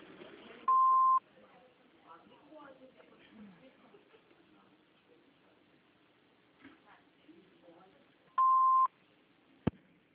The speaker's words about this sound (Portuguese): por favor, deixe seu recado com o retorno de sinal, que ligaremos assim que possível.